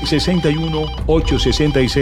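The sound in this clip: A telephone rings for an incoming call with a loud, melodic ringtone: two phrases of short tonal notes separated by a brief gap near the middle.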